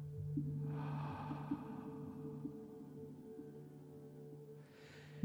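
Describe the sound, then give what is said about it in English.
Slow breathing in and out during a guided centering-prayer meditation: a long, soft breath early on and another near the end, both faint over a steady low drone. “Then pay attention to how the air is changed as you exhale. Inhale. Exhale.”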